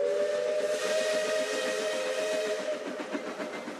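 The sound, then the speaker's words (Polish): A steam train whistle blows a sustained, shrill, steady tone over hissing steam. Beneath it, the wheels clatter in a steady rhythm for several seconds, with no voices. “W oddali słychać odgłosy wojny, stukot pociągu.”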